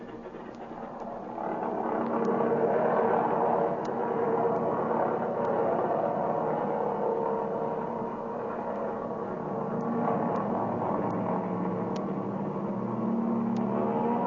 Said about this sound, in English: Hey, what ship was that just took off?